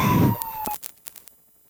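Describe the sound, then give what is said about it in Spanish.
A police patrol car siren sounds as a steady wailing tone that sags slightly in pitch over a low rumble, then cuts off, leaving a few sharp clicks and knocks. “Esa patrulla quedó inmortalizada en la grabación, para siempre, por todos los tiempos.”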